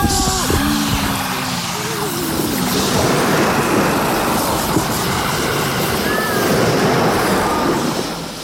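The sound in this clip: Rushing water and surf flooding a sinking ship, a loud, steady roar throughout, with brief shouted voices over the noise.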